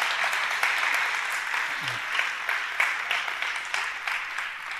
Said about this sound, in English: Y'all give them a hand real quick for being willing to just come and share and open their hearts. So, ladies, y'all can go ahead. Y'all, one more time. Y'all give them a hand one more time.